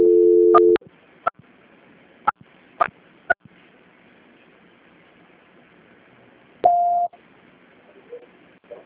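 Steady electronic telephone tones play while a call is being transferred. A low tone opens, a few faint clicks follow, and a brief higher-pitched tone comes later.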